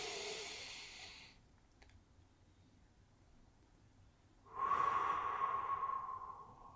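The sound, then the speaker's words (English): A slow, deep breath during a guided breathing exercise, faint and airy. One long breath trails off, a quiet pause follows, then a second long breath rises with a thin whistling tone and fades slowly. “Find your breath. All right. Find your breath.”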